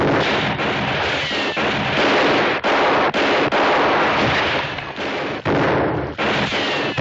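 Heavy gunfire in a sustained, dense barrage: many loud overlapping shots and blasts with only brief gaps between bursts, and no voices.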